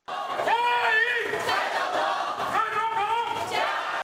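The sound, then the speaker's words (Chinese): Crowd of hundreds cheering and waving flags outside a hotel in Houston on a very cold day, welcoming Taiwan's president: loud, chant-like shouting from many voices that rises in two strong waves. “蔡英文下榻的酒店有几百人摇旗呐喊，顶着寒风热烈欢迎蔡英文的到访。”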